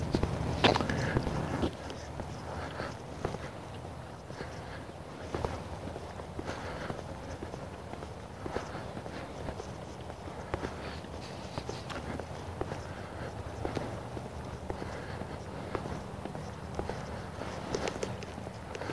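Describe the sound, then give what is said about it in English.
Footsteps of a person walking outdoors beside a park give a faint, steady series of many soft steps in an even walking rhythm over low background noise. “honestly, I've walked almost 2 miles. I'm at the last leg here. I just turned north beside the park.”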